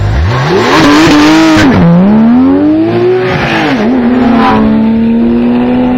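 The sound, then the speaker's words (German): Porsche sports car engine revving, loud and alone: a deep harmonic growl climbs quickly, holds, dips and surges again twice, then settles into a steady high hum. “Tja, hören wir uns doch einfach mal einen Porsche an.”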